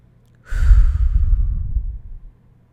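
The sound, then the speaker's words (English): A deep breath taken slowly, heard mostly as one long, soft, breathy exhale lasting about a second and a half, alone with no talk. “So take in a deep breath with me.”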